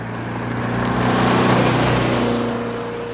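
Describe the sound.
A bus drives off, its engine a low, steady hum with droning tones that swells in loudness toward the middle and then eases back down.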